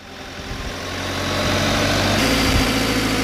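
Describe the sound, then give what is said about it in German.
Aerial lift truck engine running, a low rumbling drone that swells in loudness over the first second and a half, then holds steady and heavy. “Auf etwa 11 Meter fährt Georg Fiedler im Hubwagen zum Storchennest hinauf.”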